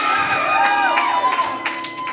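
A comedy club audience cheers and whoops for a comedian's bit: a burst of crowd cheering with high, swooping individual whoops and shouts over it, easing off toward the end.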